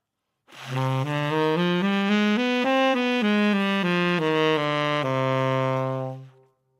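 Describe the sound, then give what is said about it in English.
A C harmonic minor scale played as a smooth, sustained line of rich-toned notes. It steps upward and then back down, ending on a long held low note, with no voices. “So C harmonic minor sounds like this.”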